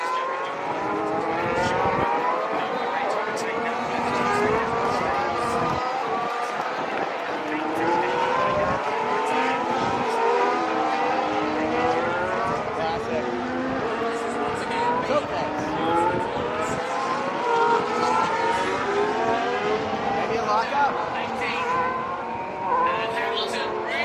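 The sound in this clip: Formula 1 race cars roar continuously through the final lap of a race, their engine whines sweeping steadily up and down, with voices mixed in throughout.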